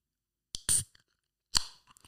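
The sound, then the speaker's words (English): A bottle of Young Blood Crystal Ale is popped open with two short, crisp bursts separated by a brief pause. A few faint small clicks follow. “Just going to have to pop open this Young Blood Crystal Ale.”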